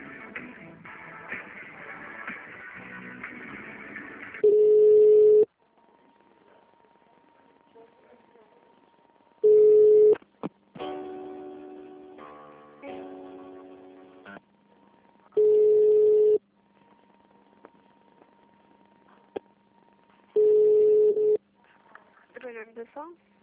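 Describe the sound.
A telephone line signal during a call: a steady low beep sounds four times, about every five seconds, between stretches of other line sounds and tones.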